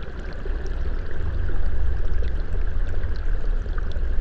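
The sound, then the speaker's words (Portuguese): Sewage water pours into a spring-fed stream with a steady, dense rushing and splashing that holds at an even loudness throughout, with no voices. “Era água limpa, agora cai esgoto nela. Então it essa água aqui é nascente.”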